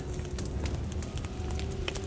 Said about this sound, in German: Jetzt brennt's schon da drüben.